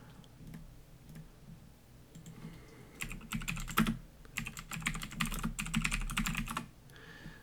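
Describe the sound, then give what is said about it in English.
Typing on a computer keyboard gives rapid clicks, sparse and soft at first, then dense, louder bursts of keystrokes through the middle before easing off near the end. “Listen to me type.”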